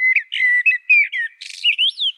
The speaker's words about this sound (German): Jedes Amselmännchen singt dabei ein eigenes Lied, aber nie zweimal hintereinander dasselbe.